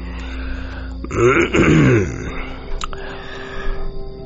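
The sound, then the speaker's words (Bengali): A man, a landowner smoking a hookah, clears his throat with one long, rough, guttural rasp, followed by a couple of fainter throaty catches. “এরপর কয়েকবার গলা পরিষ্কার করে জমিদার শশী মুখুজ্জে বললেন,”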